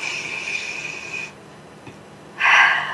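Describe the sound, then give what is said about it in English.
Deep breath during a group breathing exercise: a long, soft, airy hiss, a quiet pause, then a louder rush of breath at the end. “One more big breath.”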